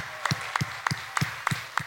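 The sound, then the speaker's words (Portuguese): An audience at a concert claps for the musicians in unison: six sharp, evenly spaced claps in a steady rhythm, fairly soft overall. “Um grande aplauso para eles.”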